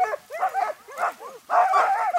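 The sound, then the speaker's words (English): A crowd of dogs at a kennel on forty acres of rural land north of Duluth yips, whines and barks in an overlapping, lively chorus. The noise is loud, drops briefly for a moment, then swells again. “Ann Stead and her husband Al have their kennel of dogs on their 40 acres north of Duluth. It's a lot of land and a lot of dogs.”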